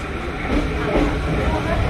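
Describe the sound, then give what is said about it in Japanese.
A train climbs a steep 30-per-mille gradient on a three-stage switchback, producing a continuous loud rumble with no clear breaks. “列車は3段式スイッチバックと1キロ進んで標高が30メートル上がるという1000分の30という急な上り勾配を登ってまいります。”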